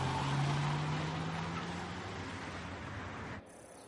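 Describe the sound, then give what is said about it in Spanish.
A car pulls away from a parking lot: a faint, low engine drone with a humming tone that rises slightly, holding steady before cutting off abruptly near the end. “Sube al coche. Se aleja del parking.”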